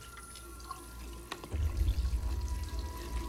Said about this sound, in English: He goes into the kitchen, takes a glass from the cupboard, and turns on the tap.